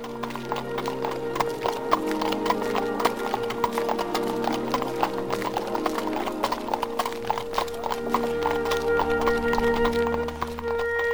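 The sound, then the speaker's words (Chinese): Hooves of a horse pulling a carriage clip-clop steadily, with many crisp, evenly spaced hoofbeats continuing throughout. “梅格很兴奋地坐上马车前往莫福特家。”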